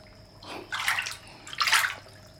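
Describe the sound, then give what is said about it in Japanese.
Hot spring bath water splashes and sloshes in two distinct bursts in a private reserved bath, each a brief hissy swirl of water rising over a quiet steady background hum. “実にいいね、いい温泉だ。お湯も風情もとってもいいけど”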